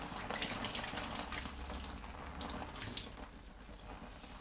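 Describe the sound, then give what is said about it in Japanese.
Hot water runs steadily from a tap during a hair wash before shampooing, a soft, continuous hiss and splash at low volume with no voices. “お湯加減はいかがですか？”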